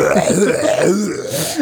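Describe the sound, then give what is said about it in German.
A drawn-out, croaky voiced burp from a person on an empty stomach, loud and continuous, its low pitch wavering before ending abruptly. “jetzt muss ich kurz aufstoßen.”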